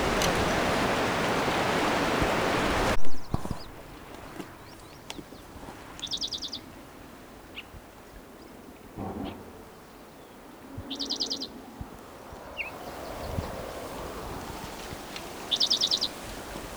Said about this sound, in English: I can't see the bird, so I don't know where he is.